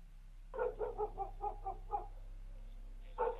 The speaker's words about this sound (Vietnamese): Độ nửa đêm, con chó mực chẳng hiểu sao cứ nhấm nha nhấm nhặng, sủa vang không dứt.